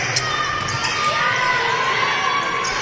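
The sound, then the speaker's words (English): Basketball dribbled on a court during a high school game, a few light bounces ticking through steady crowd noise and background voices. “DeWitt will catch it off the inbounds, dribbles towards the middle.”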